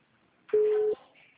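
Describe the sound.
A telephone busy-signal tone sounds once as a steady, mid-pitched beep lasting about half a second, clear and alone against near silence.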